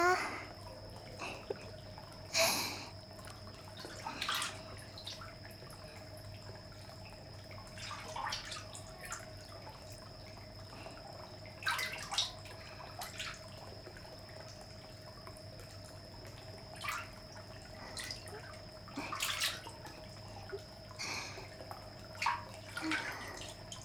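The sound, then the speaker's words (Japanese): Water moving in a hot spring bath: a few soft splashes and drips rise above a steady low hum, with no voices. “いいお湯、柔らかくてぬるすぎず熱すぎずで。”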